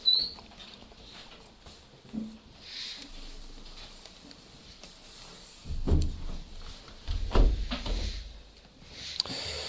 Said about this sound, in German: Wir können die Fenster wieder schließen.